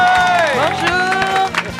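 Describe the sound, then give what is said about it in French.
Audience applause and cheering welcome a former Miss France as she joins the host, a loud, dense clatter of clapping mixed with a bright, sweeping musical jingle. “Applaudissements pour celle qui vient de nous rejoindre, les amis, Marine l'Orphelin.”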